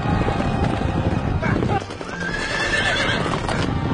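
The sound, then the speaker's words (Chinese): Two fast horses gallop in pursuit, their hooves clip-clopping in a quick, busy rhythm, while loud neighing and whinnying rise above the hoofbeats. “李世民跟他哥哥两匹快马去追啊。”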